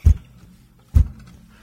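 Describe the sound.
A head bumps into a microphone twice, giving two deep, muffled thumps about a second apart with quiet between them.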